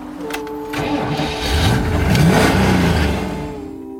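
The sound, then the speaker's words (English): A Cyclone car's engine is cranked and started, then revved in rising, growling swells that grow louder toward the middle and fade slightly at the end. “You got the Cyclone. This is clocked at 185, loaded, 4 men, pretty woman sitting right here, me 13-year-old sitting between 2 in the back. Let's crank her up.”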